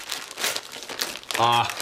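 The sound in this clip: Gift wrapping crinkles as a present is opened: bursts of crisp crumpling and rustling paper. A voice sounds briefly near the end.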